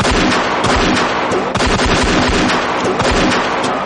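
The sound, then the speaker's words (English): Rapid gunfire, many loud sharp shots cracking in quick succession with no pause, forming a dense, steady barrage for nearly four seconds. “Shoot, you fool, shoot!”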